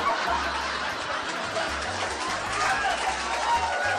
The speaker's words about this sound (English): My intro dude couldn't play, but we have this sound effect, our fake audience in the background.